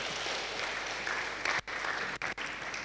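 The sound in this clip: Congregation applauding at a church Thanksgiving service, a dense, even wash of clapping that runs steadily, with a few brief gaps near the end.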